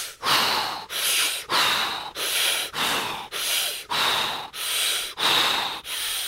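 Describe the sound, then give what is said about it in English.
Deep breathing during a guided breathing exercise: ten loud, rhythmic, hissing breaths follow one another at an even pace, each a strong airy rush with a short pause between. “One more. Let's go. Deep breath in.”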